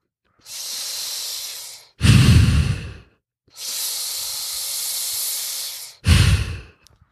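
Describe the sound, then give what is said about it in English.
Breathing through an O2 trainer breathing device: two long, harsh, hissing inhalations, each followed by a shorter, lower, rougher exhalation. The breaths are loud, with no talk. “the one that I actually use and that I like the most, and that's the O2 trainer. So I apologize for your ears again. Here's what it sounds like.”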